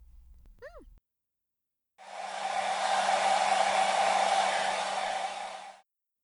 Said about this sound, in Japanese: 髪乾かすから座って。